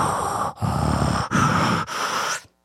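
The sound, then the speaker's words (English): A voice imitating the heavy mechanical breathing of a novelty sci-fi villain humidifier: a few loud, raspy, hissing breaths in steady alternation, each separated by a brief pause, with no words spoken. “how about a Star Trek Darth Vader humidifier? Which is perfect because, you know, he sounds like this...”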